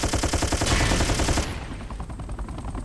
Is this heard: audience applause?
no